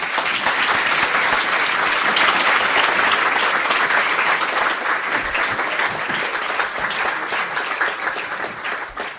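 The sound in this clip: An audience applauds after a speech: a dense, steady clatter of many clapping hands that carries on throughout and eases slightly toward the end.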